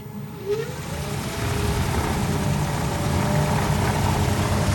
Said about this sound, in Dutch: Nou, kunnen we de motor even opspinnen? Kun je even horen hoe dat klinkt, een elektrisch vliegtuig?